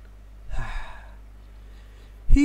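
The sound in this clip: A deep inhale taken during a breathing exercise for calming anger: one noisy, breathy intake of about half a second, then quiet, with a voice starting right at the end.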